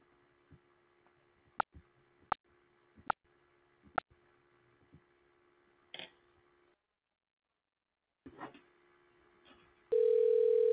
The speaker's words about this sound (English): I'm going to place a call.